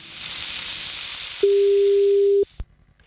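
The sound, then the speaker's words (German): Telephone tone while placing a call: a single steady mid-pitched beep lasting about a second over a constant hissing line, then a click and near silence. “Na, da rufen wir doch gleich mal an.”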